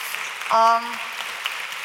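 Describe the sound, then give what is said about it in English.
Applause from an audience at a children's stage show, a steady clatter of many hands with a brief tonal voice rising over it midway. “Give Alex another clap.”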